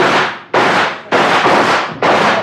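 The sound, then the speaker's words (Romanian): A volley of gunshots fired: several sharp, loud bursts at roughly half-second intervals, each cracking out and trailing off into a brief fading rumble before the next shot. “Vom încerca să-i alungăm trăgând asupra lor.”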